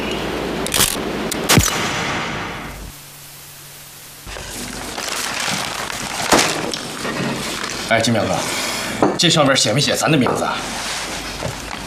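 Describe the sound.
A camera shutter clicking for a group photo of a Red Guard militia unit, a few sharp clicks that stand out between lively voices talking.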